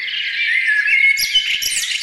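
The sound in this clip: Birds chirp in a continuous high warbling trill, with bright twittering notes that rise and fall quickly and a few sharper squawks in the second half.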